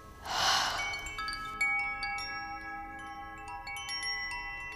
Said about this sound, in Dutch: Adem vrede in. En adem vrede uit.